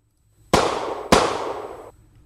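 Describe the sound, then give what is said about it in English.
Two sharp gunshots from a .38 Special handgun. Each loud crack is followed by a long, decaying ring, and a short gap separates the two. “Bonnie and Clyde had versus what the cops were carrying, take a listen to a couple of shots fired by a .38 special handgun, which is what most of the cops had.”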